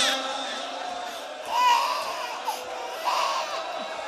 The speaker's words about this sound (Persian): عزیزم آروم باش، چرا اینجور داری گریه میکنی؟